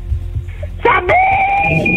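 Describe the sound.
A loud, high-pitched scream in a shouting contest bursts out after quiet murmuring, briefly climbs in pitch, then holds as one long, steady shriek to the end.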